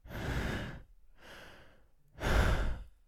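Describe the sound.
Three loud, heavy breaths from a person, each a long rough rush of air separated by short pauses; the middle breath is softer and the last one is the loudest and harshest.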